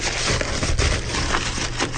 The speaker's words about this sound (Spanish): Que llegó ayer por correo este paquete. Lo volví a cerrar para volverlo a abrir otra vez, para que tú lo volvieras a abrir.